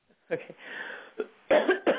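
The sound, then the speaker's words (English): Deep coughing during a prayer deliverance session, a few short rough bursts in an uneven series, the later ones louder and closer together. “Now take one deep cough and cough them all out.”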